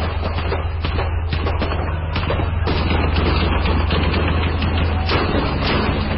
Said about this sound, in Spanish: Francotiradores, perfectamente apostados en las terrazas, hicieron su macabro trabajo. Dispararon sin piedad al vehículo donde sacaban al presidente.